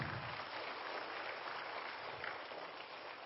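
Audience applause welcomes two students at an outreach gathering, a steady, even patter of many hands clapping that holds fairly faint and unbroken throughout.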